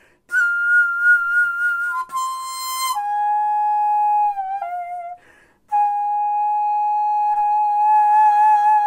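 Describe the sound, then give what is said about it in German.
Old Korean national anthem played on a daegum, a Korean bamboo flute. Long, breathy, sustained notes with gentle vibrato step downward, then a brief pause, then another long held note, clear and alone. “Das war das erste Mal, dass ich diese Hymne gehört habe, sagt Lee Aram, direkt nachdem er das Lied selbst gespielt hat. Gerade wurde ihm das Notenblatt vorgelegt und er hat es spontan mit seiner Daegum ausprobiert,”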